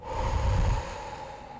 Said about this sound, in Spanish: Es algo así como respirar profundo y exhalar.